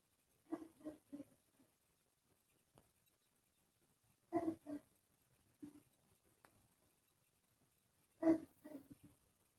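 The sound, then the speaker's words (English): A dog barks faintly in three separate clusters of a few quick barks each, with long quiet gaps between them. “Sorry, that's my dog barking there.”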